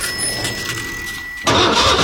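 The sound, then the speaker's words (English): A car engine slow to start cranks with a fainter, pulsing churn for about a second and a half, then catches abruptly and runs on at a loud, steady roar. “Car slow to start this morning?”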